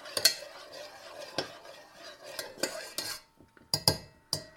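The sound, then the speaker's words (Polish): Batter being stirred with small, gentle movements: a spoon or utensil scrapes and clinks against the bowl in many soft, irregular strokes, with brief brighter taps between quieter swishes. “Mieszam takimi drobnymi, delikatnymi e, ruchami.”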